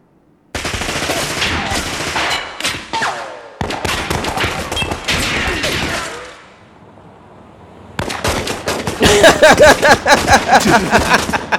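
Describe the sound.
Rapid gunfire from a Draco rifle rattles in loud, dense bursts separated by short pauses and one quieter lull, ending in a fast, evenly pulsing volley.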